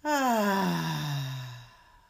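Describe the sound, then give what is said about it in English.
A deep, audible breath out, voiced as a long sigh: one loud exhale that begins abruptly and slides steadily down in pitch as it fades over about two seconds, with no inhale heard. “So let's breathe in and out.”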